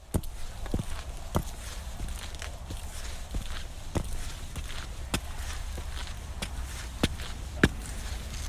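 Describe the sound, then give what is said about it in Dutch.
Footsteps climb a stairway up the IJsselmeer dike in Flevoland: many steady, evenly paced treads with sharp, fairly distinct impacts over a constant low background. “Zo, en als je dan de trap op bent, dan kom je bovenop de IJsselmeerdijk.”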